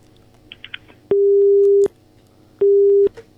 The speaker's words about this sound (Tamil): ஒருவேளை call cut பண்றதா அவரோட திறமையா இருக்குமோ?